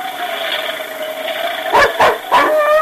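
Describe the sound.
A dog barks three short, sharp times in quick succession near the end, sounding over a steady tonal background hum, with no other voices present.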